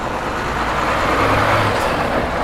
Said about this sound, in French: Voilà, il y a un camion.